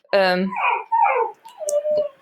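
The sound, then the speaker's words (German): A dog barking and whining to be let outside: a loud, high yelp followed by further rising and falling vocal bursts, mixed with talking. “das ist der Hund, der möchte raus.”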